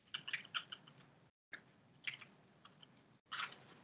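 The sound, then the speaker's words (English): Faint computer keyboard typing comes in short bursts of soft, irregular clicks separated by brief silent gaps, with no voices. “I don't know why I just typed it like that.”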